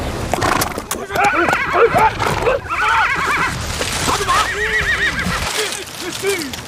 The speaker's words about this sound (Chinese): 根据现场的情况分析来看，很有可能是中国的张北马。